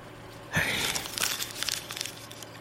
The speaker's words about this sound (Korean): 대수는 그 숫자들을 가만히 바라보다 종이를 구겨버린다.